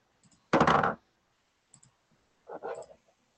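Dice clatter across a surface during a tabletop role-playing game, heard as two short bursts of sharp, rattling clicks separated by a brief pause, with faint ticks in between.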